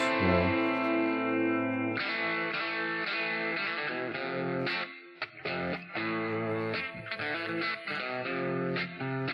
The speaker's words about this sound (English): lots of reverb